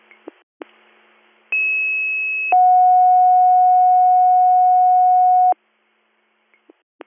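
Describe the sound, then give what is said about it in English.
Two-tone dispatch pager alert sent to an EMS crew for a fire alarm activation: a higher tone held about one second, then a lower tone held about three seconds, with brief clicks before and after. “Little Meadows EMS, second page, Bradford County Echoing for Susquehanna County, Silver Lake Township, 97 Lyon Road, fire alarm activation.”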